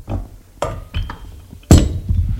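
A beer bottle and a drinking glass being handled, giving a few sharp glassy clinks and knocks at uneven intervals, with the last one the loudest and no talking.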